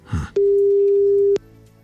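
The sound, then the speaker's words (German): A single steady telephone ringback tone, mid-pitched and loud, lasts about one second after a short burst of low rumbling noise, then gives way to faint line hiss. “Und deshalb rufen wir da jetzt mal an, in der Hoffnung, dass die Karin auch ans Telefon geht.”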